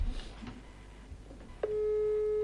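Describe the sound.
A telephone line tone sounds while a call is being placed. A steady, even tone starts partway in and holds unbroken to the end, following a stretch of faint background noise.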